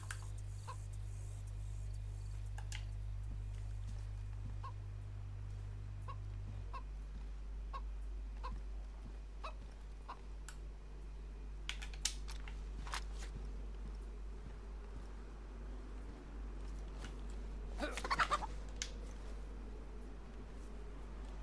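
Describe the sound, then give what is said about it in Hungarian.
Faint clucking from a chicken in a video game set on a military base, with soft scattered clucks and a slightly louder burst near the end, all over a steady low hum. “Na hát, hogyha már így alakult, akkor csak meg pucolom ezt a csirkét itt a katonai bázis közepén. Kellett neked itt kotkodálni, kis barátom.”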